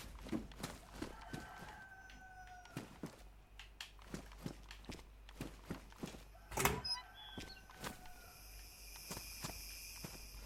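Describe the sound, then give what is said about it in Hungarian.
A rooster crows faintly a few times amid a quiet outdoor background of chirping insects, with many sharp clicks and knocks scattered throughout. “És valahol itt van egy kakas, akit mindjárt jól levadászok.”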